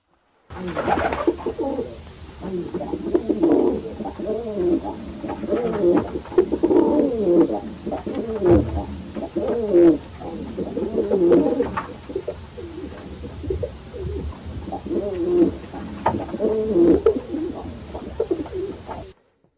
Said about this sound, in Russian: Голуби.